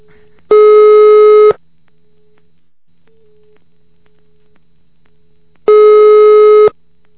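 Telephone line tone while calling the police: two long, steady electronic tones lasting about a second each, separated by several seconds of near silence, loud and clean with no voices.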